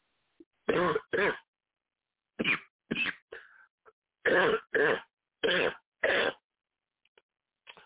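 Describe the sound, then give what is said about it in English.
Coughing: a fit of harsh, throaty coughs bursting out mostly in close pairs with short silent gaps between, followed by a few faint breaths at the end. “pardon me for coughing.”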